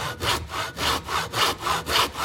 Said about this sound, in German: Eine Säge.